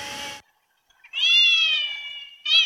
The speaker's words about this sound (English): to me, it sounds like the cat is meowing in a submarine.